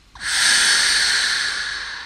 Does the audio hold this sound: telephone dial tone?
no